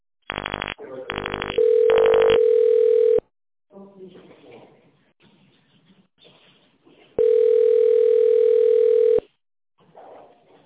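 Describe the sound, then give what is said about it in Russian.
Touch-tone dialing of an internal extension on a company phone line: three short bursts of keypad tones, then a steady tone. A stretch of talk follows, then another long steady tone, and talk resumes at the end. “Наберите внутренний номер аппарата”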